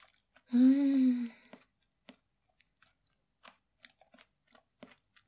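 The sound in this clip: Someone savours the softest, fluffiest, melt-in-the-mouth part of a dish. A voice first gives a long contented hum, then many faint, sparse smacking and clicking chewing sounds follow in quiet.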